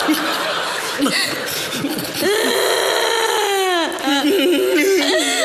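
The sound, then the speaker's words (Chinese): People crying and sobbing, several wavering, wailing voices rising and falling in pitch, loud and continuous with broken sobbing breaths throughout. “行了行了，都别哭了，等我别哭了啊，别哭了”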